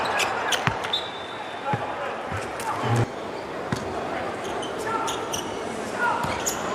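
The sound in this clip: A basketball is dribbled on a court during a game involving China's team, with several sharp, irregular bounces ringing out over steady crowd noise while a commentator talks throughout.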